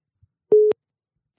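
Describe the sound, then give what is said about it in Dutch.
A single short, steady electronic telephone tone sounds once as a call is placed through phone-calling equipment while waiting for an answer. It is a mid-pitched, moderately loud beep heard alone, followed by a brief click. “Kijk of ze opneemt.”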